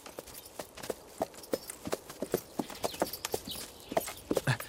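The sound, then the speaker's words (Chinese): Horses' hooves clip-clop as the horses are led out of a stable. Many irregular hoof strikes follow a loose walking rhythm, growing a little denser toward the end. “那个把我爹的坐骑牵过来。 是，在这个厩里。 哎， 牵过来。 把我那小红也牵过去。”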